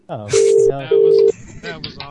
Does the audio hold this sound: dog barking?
no